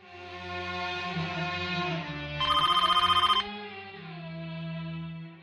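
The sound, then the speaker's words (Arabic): A telephone bell rings in one short, rapid metallic trill lasting about a second, cutting loudly over a steady humming tonal backdrop before fading. “يا ولاد حد يرد على التليفون؟ ولا حد واخد باله.”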